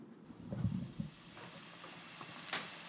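Ramps, bulbs, stems and leaves, frying in a little butter in a fry pan: a soft, steady sizzle with a few low, muffled knocks near the start, all fairly quiet.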